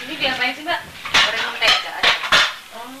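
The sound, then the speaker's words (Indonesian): Plates clatter as they are picked up, with several sharp clinks and knocks of crockery and cutlery in quick succession, fairly loud and bright, following brief low talking at the start. “Yuk ambil piring.”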